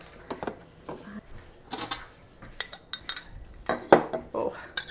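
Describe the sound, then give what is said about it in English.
A heavy saucepan is handled on a stove over a medium-high flame, giving a quiet, irregular series of metallic clanks, knocks and clattering scrapes with short gaps between them. “I've got sort of a heavy saucepan on the flame on medium high. I'm just gonna put some butter in there.”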